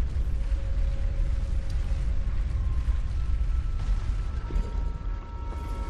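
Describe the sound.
An elevator lift moving in the video game Elden Ring: a steady, low mechanical rumble with faint humming tones running underneath, continuous and with no talk.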